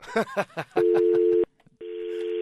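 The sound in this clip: A steady telephone tone on a call-in line, a flat buzzing pitch lasting under a second, then returning after a short gap, with a voice talking just before it starts.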